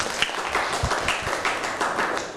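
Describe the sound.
Clapping for a group of students as they sit down after presenting on teamwork and leadership, an uneven patter of many hands at moderate level.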